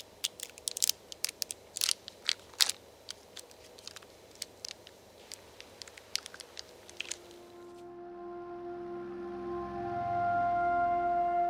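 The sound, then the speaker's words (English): Crinkling of a chocolate wrapper as it is unwrapped in a chocolate advertisement: many sharp, crisp crackles for about seven seconds, then a soft, steady tonal background takes over. “In this ad for Dove Chocolate in China, a woman crinkles a chocolate wrapper, unwraps it, and then pops a piece into her mouth.”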